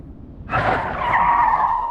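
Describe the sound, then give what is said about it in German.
An old Austin car braking hard, its tires skidding: a sudden loud screech bursts in over a low rumble and holds as a harsh, sustained squeal for about a second and a half. “Wir hingen beide in den Gurten. Ich war überrascht, wie gut die Bremsen am alten Austin noch waren.”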